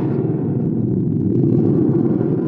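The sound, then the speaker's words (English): A gourd thunder drum, with a membrane across its bottom and a hanging spring, is shaken and gives a steady, continuous low rumbling roar that holds at the same loudness for the whole stretch, with no voices. “They have this membrane on the bottom, like a drum thing, and a spring hanging up. When you shake it, sound just like thunder.”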